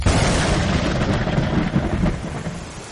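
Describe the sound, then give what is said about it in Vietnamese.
Heavy pouring rain roars as a dense, continuous hiss with a deep rumble underneath, loud and steady throughout. “Mưa càng lúc càng xối xả.”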